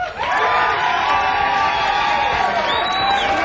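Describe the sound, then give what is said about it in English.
An audience rises in a standing ovation, cheering, whooping and shouting as a band walks on stage at a live show. The roar is loud, dense and sustained throughout, with scattered high whistles and yells riding on top. “Oh, a standing ovation. Check it out.”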